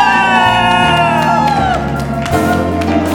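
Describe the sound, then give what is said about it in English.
A church audience cheers, whoops and claps to welcome an apostle to the pulpit. The loud, continuous crowd noise is thick with shouting voices and holds strong from start to finish. “And with a clap offering, let us welcome Apostle”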